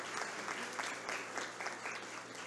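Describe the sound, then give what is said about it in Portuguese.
Audience applause at a municipal award ceremony honouring a teacher, a dense, even patter of many hands clapping that stays faint and continuous throughout. “Também uma salva de palmas à professora Maria”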